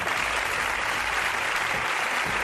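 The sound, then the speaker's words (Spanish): About 400 police officers and administrative staff at the Mossos headquarters in Sabadell applaud José Luis Trapero's arrival, a dense, steady wash of clapping that continues evenly throughout. “400 personas de la sede central de la Policía Autonómica, entre policías, que había muchos, y personal administrativo, en la sede de los Mossos, en Sabadell, aplaudiendo la llegada como un héroe de José Luis Trapero.”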